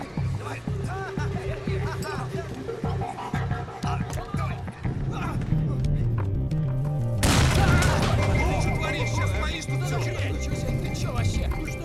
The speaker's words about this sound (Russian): Парень подошел поближе и бросил под автобус гранату.